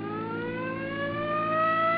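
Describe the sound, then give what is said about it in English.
A car siren wails on an interstate road among trucks and trailers. Its steady, harmonic tone glides slowly upward in pitch throughout, heard alone without voices. “Come on, hit your siren.”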